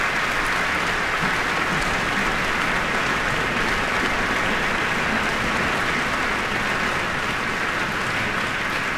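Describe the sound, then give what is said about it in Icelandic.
Audience applause in a concert hall after an orchestral performance: a dense, even patter of clapping that continues without a break. “Og Barbaru sömuleiðis fagnað vel áhyrjandum hér í Eldborg.”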